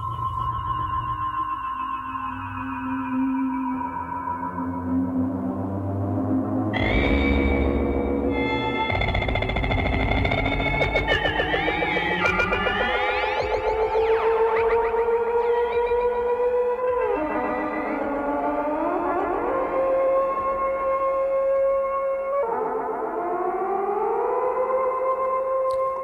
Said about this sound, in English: Forbidden Planet, that stuff.